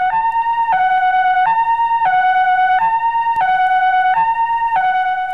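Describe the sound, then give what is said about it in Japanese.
Ambulance siren sounding continuously in a two-tone hi-lo pattern, alternating between a higher and a lower pitch roughly every two-thirds of a second; loud and steady, with no voices. “あ、この音は救急車なのだ。”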